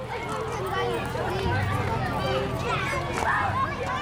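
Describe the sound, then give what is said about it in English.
Lively babble of children running around and playing at a small fair on a playground ringed by stalls after a Stretton walking day, many overlapping voices and shouts forming a dense, steady crowd noise with scattered footfalls. “As you can hear, you can let the kids run around, playing on the small fair, and taking turns at any of the stalls that inhabit the playground's perimeter fence.”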